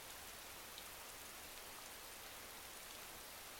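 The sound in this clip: Rain falls steadily, making a faint, continuous hiss that stays even throughout with no voices.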